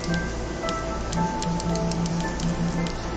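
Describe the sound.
Menu clicks from the creative menu of the Minecraft Windows 10 Edition video game: many light, quick ticks over a steady hiss, with faint sustained tones underneath.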